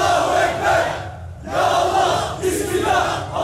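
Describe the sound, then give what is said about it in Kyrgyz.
Hundreds of demonstrators at a protest in Istanbul against the Kurdish referendum chant together in loud, surging waves of massed voices, with a brief dip partway through before the chanting swells again. “17-сентябрь күнү Стамбул шаарында күрд референдумуна каршы жүздөгөн адам катышкан демонстрацияда өттү.”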